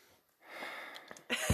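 A deep nasal inhale as someone smells organic pour-over coffee: a soft, breathy airflow swells and holds for about a second, then ends in a louder, rougher rush of breath.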